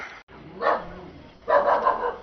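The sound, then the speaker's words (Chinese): A dog barking at night in a remote mountain village after a flood: two separate bursts of barking, the second longer and fuller, over quiet background. “一声狗叫，一束微光，晚上9点，三河村到了。”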